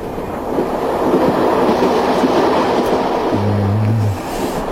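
A moving train carriage gives off a loud, continuous rumbling roar with a faint clickety-clack of wheels on rails, and a brief low hum rises near the end.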